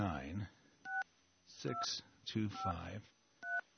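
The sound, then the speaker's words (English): Telephone keypad tones sound as a number is dialed late at night, a few short, separate beeps alternating with a person talking. “Maybe we could try calling. I don't know if they answer their phones at this time of the night, but let's try.”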